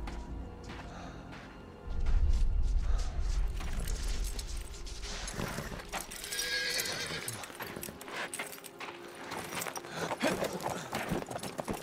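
Horse hooves clip-clopping as a rider leaves on horseback. Faint at first, the hooves turn to a loud, steady stream of hoof beats with a neigh and some rattling mixed in.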